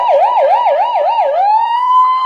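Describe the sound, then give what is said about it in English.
A man's voice imitates a police siren, warbling quickly up and down several times in an even rhythm, then settling into a long, steady high wail. The sound is loud and clear, with nothing else behind it. “if you want to see this guy's amazing, amazing police siren,”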